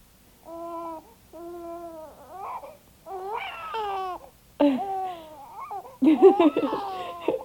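A baby boy cries in several wailing bursts, starting with short, even whimpers and growing louder and more strained toward the end.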